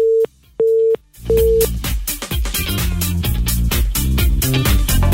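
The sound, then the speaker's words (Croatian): Busy tone on a phone line after a dropped call-in connection: three short, steady low beeps with gaps between them. The last beep overlaps the start of loud music, which then fills the rest. “Nažalost, izgubili smo kontakt.”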